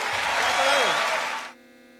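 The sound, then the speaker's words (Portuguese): Audience applause: a dense, steady wash of clapping that holds for about a second and a half, then stops abruptly, leaving a faint hum. “Un fuerte aplauso, Mario Bofill.”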